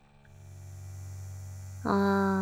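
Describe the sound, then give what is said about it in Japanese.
A vibrator motor hums low and steady, then about two-thirds through jumps abruptly to a louder, buzzier drone with strong overtones that holds to the end. “ローター、スタート”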